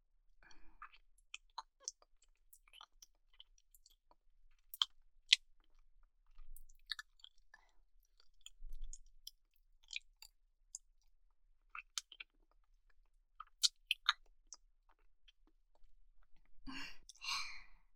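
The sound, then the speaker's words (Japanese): Wet tongue-kissing sounds: faint, scattered smacks and sticky clicks in an irregular rhythm with quiet gaps, ending in a breathy, drawn-out sound. “じゃあ次はベロ入れてチューしてあげる。”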